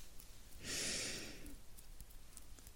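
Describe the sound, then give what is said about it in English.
A single deep inhalation during a guided breathing exercise, a soft airy rush lasting about a second, quiet and heard alone. “Breathe in.”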